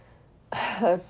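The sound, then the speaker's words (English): A single deep breath, taken with a sudden, breathy onset and lasting about half a second, ending with a faint voiced edge before falling quiet. “Again, let me take a deep breath.”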